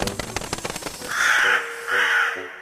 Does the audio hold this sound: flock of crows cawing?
yes